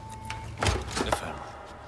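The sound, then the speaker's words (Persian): An unlocked door to an ammunition store being opened: a couple of short rattling clunks over a low, steady hum. “آفرین، چه سری باز کردی. فقط به یه نکته اشاره بکنم. چی شده؟ اصلا در قفل نبود.”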